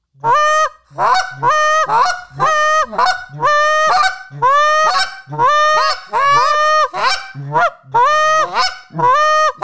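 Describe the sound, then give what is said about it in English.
Voices imitate a low moan and a clucking chicken, building a loud, rapid run of many honk-like calls in a steady, repeating rhythm. “if you just focus on the moan and I build off of your moan, just do a moan and I'll do a cluck.”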